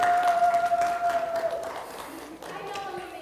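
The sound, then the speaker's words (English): Audience applause during a talk: a steady mass of clapping with a thin sustained tone over its first half and voices mixing in. “give her a hand”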